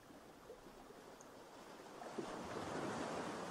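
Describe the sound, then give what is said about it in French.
Sea waves washing onto a sandy beach: a soft, steady rushing wash that swells a little louder partway through, faint and with no voices. “Le bruit de la mer vous berce, vous emmène vers votre être intérieur”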